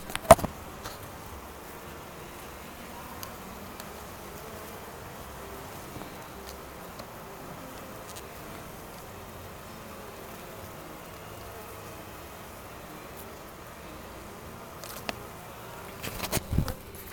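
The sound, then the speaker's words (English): Bees buzz at an opened beehive in a steady, faint, continuous hum, with a few brief handling knocks near the start and end. “I'm going to check this beehive”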